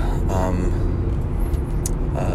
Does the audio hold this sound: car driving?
yes

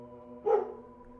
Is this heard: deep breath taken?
no

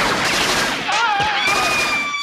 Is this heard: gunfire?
yes

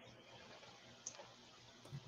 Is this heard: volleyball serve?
no

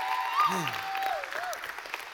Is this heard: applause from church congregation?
yes

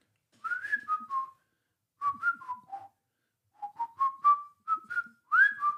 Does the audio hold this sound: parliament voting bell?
no

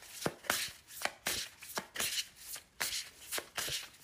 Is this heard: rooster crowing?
no

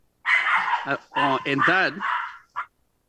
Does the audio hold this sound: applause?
no

